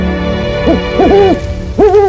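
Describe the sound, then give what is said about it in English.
A great horned owl gives a short series of deep, resonant hoots. The loud, low, clear calls come in a rhythmic pattern, some doubled, with no other sound competing. “Thank you so much, Great Horned Owl.”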